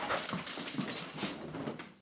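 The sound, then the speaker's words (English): A female dog whimpering faintly, with soft high whines and snuffly breaths in a quick, uneven series. “Come here, girl. Good dog. Yes, you are. Come here.”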